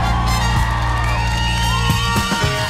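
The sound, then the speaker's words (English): A lone man lets out a hearty cheer and whoop over a steady tonal backdrop, one voice rather than a crowd. “Sound of a one-man cheer there.”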